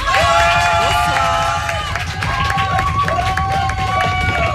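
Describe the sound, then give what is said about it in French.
A radio show audience gives an ovation, cheering and applauding loudly and continuously, with many high whooping voices that rise and fall over dense clapping throughout. “là on va faire une ovation, un maximum de bruit pour la gérante de l'atelier numéro 8”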